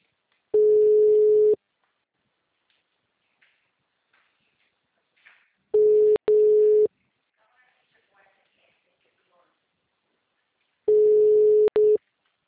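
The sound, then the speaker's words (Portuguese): Ringback tone of a phone call ringing unanswered: three long, steady, mid-pitched tones, each about a second long, separated by long silent gaps. “pode ligar, mas ele não atende”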